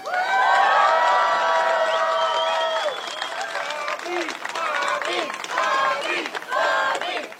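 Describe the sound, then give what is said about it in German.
A crowd at an Iowa fair cheers, applauds and shouts to greet Robert F. Kennedy Jr. as he takes the soapbox stage. The loud, sustained roar has high whoops over it and stays strong throughout. “Kennedy, braun gebrannt und dynamisch, hochgekrempelte Ärmel, Jeans, wird auf der Soapbox euphorisch begrüßt.”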